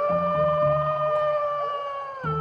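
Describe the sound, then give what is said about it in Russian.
A wolf howls in one long, sustained, slightly wavering note that holds loud and steady through the whole clip, alone with no speech. “Вот вошел волк Ваня в медвежий лес. Идет, воет.”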